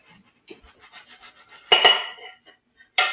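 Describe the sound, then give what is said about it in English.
Dishes clink as a plate is taken out in a kitchen while quesadillas are made. Soft scattered taps lead to two sharp, ringing clatters close together, and one more loud clink comes near the end. “So let's get the plate out.”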